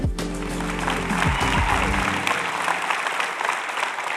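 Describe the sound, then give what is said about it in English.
An audience applauds to welcome a speaker, Kurt Jordan of Pine Lake, with dense, sustained clapping that gradually thins out. A voice is heard over the opening moments. “Would you put your hands together and welcome our voice of Pine Lake, Kurt Jordan.”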